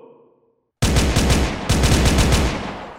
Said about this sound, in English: Pistols, rifles, and even automatic weapons were firing up at us.